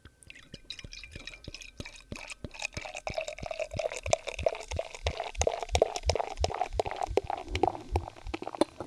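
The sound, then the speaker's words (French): Glugging pour of a Hexen Imperial IPA beer from a freshly opened bottle: many steady, evenly spaced gurgles that grow slightly louder as the pour goes on, with no talk. “Oh que oui, je vous débouche ça. Et la bière, c'est une Hexen Imperial IPA que je vais vous verser dans les oreilles.”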